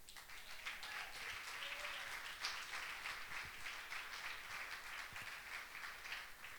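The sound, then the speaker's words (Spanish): An audience applauds at a church service: dense, steady clapping that runs unbroken for several seconds at an even, fairly faint level, with scattered sharper claps and no voices. “Denle nomás otro aplausito y ya.”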